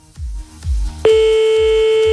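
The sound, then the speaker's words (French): Telephone ringing tone on an outgoing call, a single steady, unbroken beep that begins about halfway through and holds to the end, over a low, regular thumping pulse. “Et jusque là tout va bien, ça sonne. Ce serait mieux si ça décroche.”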